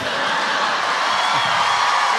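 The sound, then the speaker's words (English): An audience cheers and whoops after a joke, a steady, loud wash of crowd noise that holds evenly from start to end. “They're cheering.”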